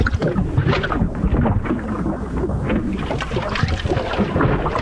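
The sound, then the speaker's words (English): A clogged drain gurgles in a continuous, loud, bubbling rumble with sloshing low tones, steady and unbroken, with no voices. “Uh-oh, is that another clogged drain?”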